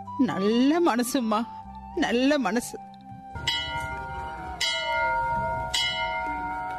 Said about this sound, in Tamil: அது கோயில் மணி கூட அடிக்குது, நல்ல சகுனம்தான்.